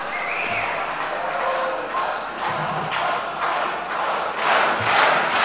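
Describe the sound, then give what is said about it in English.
A crowd chanting a name during a quiz game at a hacker event, with loud, sustained massed voices that keep a fairly steady level and swell slightly toward the end. “The audience is chanting for Hans.”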